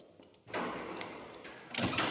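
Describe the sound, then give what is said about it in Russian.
A door is locked, with a soft rubbing, sliding noise followed by a louder clack near the end, all fairly faint. “Оля запирает дверь и поднимается с подругой на лифте.”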